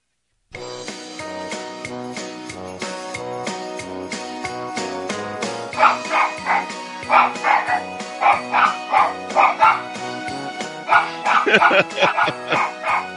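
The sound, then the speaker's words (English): A dog's barks set to the tune of Jingle Bells ride over a full music backing, with quick rhythmic bark bursts joining in from the middle and carrying the melody through to the end. “That's my dog Teddy barking jingle bells for you.”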